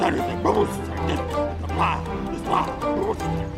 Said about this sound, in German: Er bellte nur selten. Wenn aber, dann richtig.